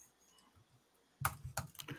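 Computer keyboard typing into a document: after a quiet stretch, a few quick, faint key clicks arrive in short bursts.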